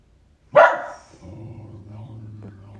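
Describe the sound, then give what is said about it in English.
A dog gives one sharp, loud bark that stops abruptly and leaves a low, steady background hum. “That's my dog.”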